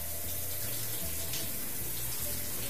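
Warm bath water running, a steady, even hissing and splashing stream that continues throughout at a fairly quiet level.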